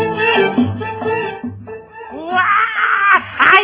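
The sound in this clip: A person crying in a radio drama scene, an acted, wavering voice that sobs and wails in uneven bursts, rising in strength and pitch toward the end.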